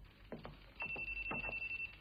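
A telephone rings with a faint, rapidly pulsing electronic trill. A few soft thuds come just before the ringing starts.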